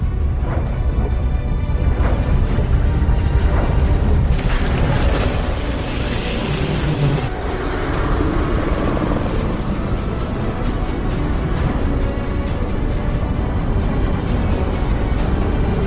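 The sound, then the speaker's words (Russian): Deep, continuous roar of a shuttle flying over a mine where big drilling machines are working. The loud rumble holds steady throughout, with a grainy rushing texture and some rougher surges layered over the low drone. “Челнок пролетает над шахтой, где работают большие бурительные машины.”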